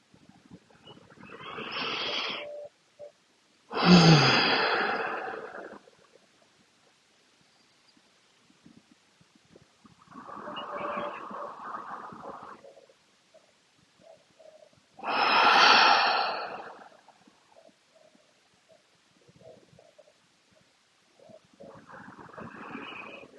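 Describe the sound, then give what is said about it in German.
Slow, deep breaths in and out before a guided meditation: several long, airy breaths a few seconds apart, alternating softer and stronger, with no talk. “nimm dir einen Moment für ein paar tiefe, nährende Atemzüge, ob mit offenen oder geschlossenen Augen.”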